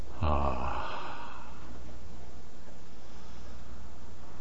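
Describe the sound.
A single human breath, part of a demonstration of breathing at about 14 breaths per minute: a loud breathy exhale at the start, then only a soft hiss.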